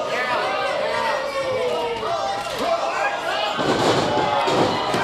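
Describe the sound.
A wrestler landing a flip in a pro wrestling ring, with a heavy thud and slam rising out of steady crowd noise while commentators talk over the action.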